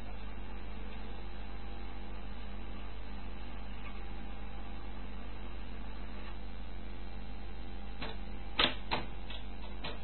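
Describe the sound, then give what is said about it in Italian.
Mechanical clicking from a jammed tape player with the tape stuck: a steady low hum and hiss run throughout, then a short cluster of sharp clicks sounds near the end. “Niente, non porta neanche avanti né indietro. Praticamente il nastro si inceppa.”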